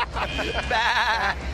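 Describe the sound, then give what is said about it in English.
A human voice imitates a sheep bleating. A couple of short nasal sounds lead into one drawn-out, quavering 'baa' with a strong wobble in pitch, fairly loud. “She said, baa. Baa. No, no, no, baa. Oh, baa. I get it. Baa.”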